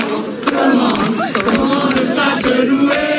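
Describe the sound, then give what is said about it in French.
A huge crowd of Catholics cheers Pope Leo XIV at a giant open-air mass on the Place de la Concorde in Paris. Loud, sustained shouting and acclamation come from many voices at once, rising in waves throughout. “Vatican, 800 000 personnes étaient présentes hier à la messe géante célébrée par Léon XIV sur la place de la Concorde à Paris. Le pape acclamé par des catholiques”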